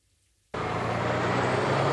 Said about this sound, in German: Seit 3 Monaten rollen Lkw durch den kleinen Ort Mainz-Kostheim. Autos schieben sich durch kleine, schmale Straßen.